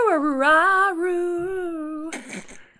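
A dog howls along to a song: one long tonal howl that wavers and slides in pitch, sustained for about two seconds, then breaks into brief rough, noisy sounds before fading.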